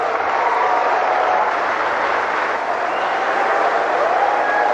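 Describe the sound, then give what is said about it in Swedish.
Audience applause as Russia's president is welcomed to address a business forum at the BRICS summit, a loud, dense, unbroken wash of clapping with crowd noise that holds steady throughout. “Ja, här har vi en glad publik, vad det verkar. Välkomna Rysslands president när han ska tala inför ett affärsforum i anslutning till BRICS nu på toppmötet där.”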